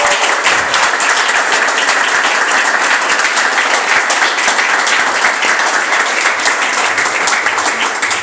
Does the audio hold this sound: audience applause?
yes

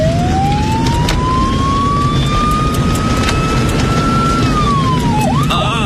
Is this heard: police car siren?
yes

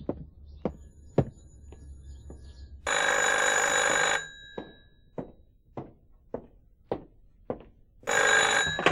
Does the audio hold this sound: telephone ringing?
yes

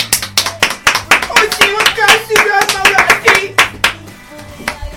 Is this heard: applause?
yes

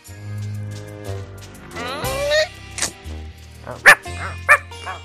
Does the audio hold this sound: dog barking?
yes

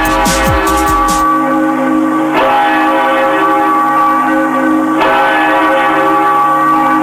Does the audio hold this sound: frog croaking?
no

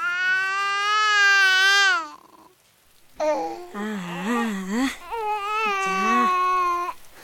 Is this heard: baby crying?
yes

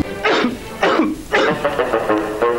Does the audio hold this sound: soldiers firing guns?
no

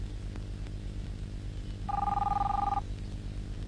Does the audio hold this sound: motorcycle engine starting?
no

